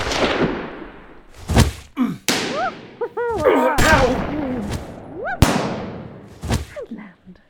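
Gunfire cracks out in several loud, sharp bangs spaced irregularly, with chirping, swooping tones and thuds scattered between the shots.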